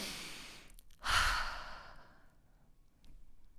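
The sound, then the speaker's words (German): A person breathes deeply in and out as a slow, airy sigh that swells and then fades, followed later by a softer breath, faint and with no talk. “Und dann tief einatmen und tief ausatmen, so wie am Anfang.”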